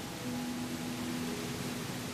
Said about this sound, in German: Doch stattdessen hörst du etwas. Ein Rauschen, wie ein Fluss oder ein Wasserfall.